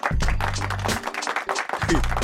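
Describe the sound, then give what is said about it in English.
A small studio audience gives light applause at the opening of a talk show: a dense, continuous patter of clapping with some vocal sounds mixed in. “That's, we have light studio audience tonight here. That sounds like a light studio audience, but that's okay because we will power through”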